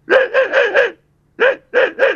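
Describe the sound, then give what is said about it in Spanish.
A person imitates a dog barking over the phone: seven voiced, yappy barks, a quick run of four, a short pause, then three more, loud and clear with no other sounds. “Y tenía que hacer el perro, a ver por teléfono, vamos a ver cómo sale, pero ahí va.”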